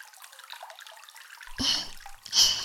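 Water splashing and pouring as a person's body is washed: two short bursts of wet splashing come after a quiet stretch, the second slightly louder, with no talking.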